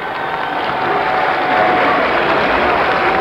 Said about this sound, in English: Probably this is the greatest audience reaction thus far from Mr. Roy Wilkins of the NAACP.